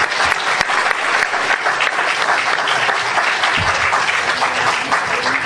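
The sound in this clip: An audience gives a presenter a dense, steady round of applause at a day of talks, the many hands clapping at an even, loud level throughout.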